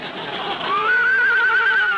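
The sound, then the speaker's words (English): A racehorse at the starting gate gives a long, high whinny that climbs and then holds a steady, slightly quavering pitch, standing alone over a soft background hiss. “The horses are all at the starting gate. Steady. Steady now. And they're off.”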